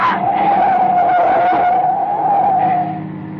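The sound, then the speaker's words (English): Car tires skidding on a road at night as the vehicle is forced toward the edge: one long, steady high squeal lasting about three seconds, easing off at the end. “Oh, we're skidding!”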